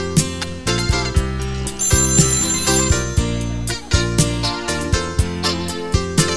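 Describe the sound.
A telephone ringing as an electronic ringtone melody, bright repeating tones over a steady rhythmic pulse that keeps going for several seconds with no voices.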